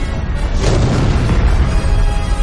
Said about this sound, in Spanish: Sale por una grieta y se aleja con sus compañeros. El oscilador estalla.